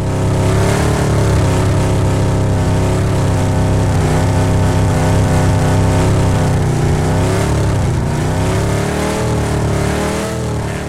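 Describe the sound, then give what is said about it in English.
A car drives in circles around the listener, its engine a loud, continuous roar with a pitch that wavers up and down as it revs and settles, with no break in the sound. “he did a really good job of driving in circles around me, which is harder than it sounds. So here that is.”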